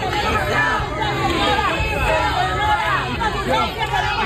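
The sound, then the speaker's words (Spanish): Crowd of health workers booing Spain's health minister as she arrives in Ceuta, a dense mass of shouting, jeering voices that stays steady throughout. “A su llegada para reunirse con el presidente ceutí, la esperaban algunos profesionales sanitarios entre abucheos.”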